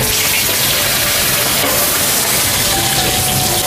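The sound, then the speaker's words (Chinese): Fish sizzles as it is half pan-fried, half deep-fried in a generous amount of oil: a loud, steady, dense crackle that runs unbroken throughout, with no talking. “干烧一般都是炸的，油比较宽。 大千干烧鱼 半煎半炸，这个鱼”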